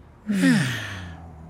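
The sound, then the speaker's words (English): A person slowly breathes out through the mouth during a guided belly-breathing exercise: a single long, sigh-like exhale that starts voiced and fades into a soft breathy tail. “breathe in slowly through your nose. Then breathe out slowly through your mouth.”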